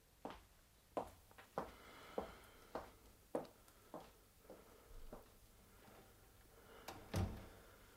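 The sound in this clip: Window shutters are closed and bolts are slid shut, producing a series of sharp wooden knocks and thuds spread across several seconds, ending with one heavier, deeper bang.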